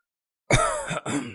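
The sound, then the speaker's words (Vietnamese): A dry, hacking cough from another room of a small mud-walled house: two harsh bursts in close succession, fairly loud and heard alone. “Trong một gian phòng truyền ra tiếng ho khan.”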